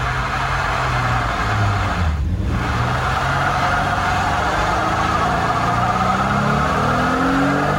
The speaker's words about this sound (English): Whoa. Those sound like bigger tires. There's smoke coming in your window.